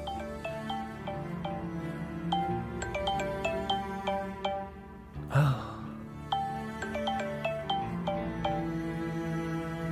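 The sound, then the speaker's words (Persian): A mobile phone ringtone plays a repeating melody of bright, plucked-sounding tones, steady and fairly loud, broken by a brief breathy burst near the middle. “کنجکاو نیستی بدونی کی داره زنگ میزنه؟ جواب بده.”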